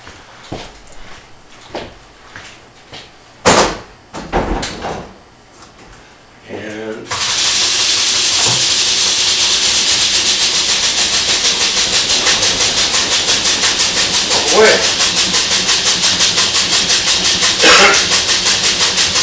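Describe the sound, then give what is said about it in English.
A winery pump forces nitrogen into wine in a fermenter, churning it up: after a few scattered knocks and clanks, a loud, steady rushing roar starts abruptly and keeps going with a fast, even pulsing throughout. “Now with my finished wines, I don't use this pump. It beats the snot out of that right now, which is good. It's putting a lot of nitrogen in it, mixing it all up for a while.”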